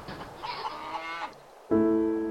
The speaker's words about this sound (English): Bleating goats, squawking chickens, mooing cows, not to mention the vicious wind whipping outside.